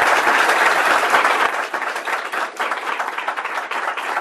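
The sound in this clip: Audience applause welcoming a speaker: full, loud clapping that is dense at first, then turns slightly thinner and more uneven while continuing to the end.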